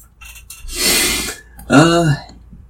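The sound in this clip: Someone clears a tickly throat with a rough, breathy rasp, then a short voiced hum after a brief pause.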